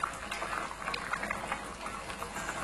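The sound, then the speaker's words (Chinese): Water pours and bubbles into a pot holding chicken pieces, a soft, steady liquid gushing with faint burbling, fairly quiet and continuous throughout. “加入清水，放入鸡块，完成面炕鸡的最后一步。”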